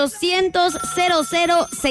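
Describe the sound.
A telephone rings with an incoming call to a live call-in radio show, giving a repeating bright tonal ring pattern with a short break partway through.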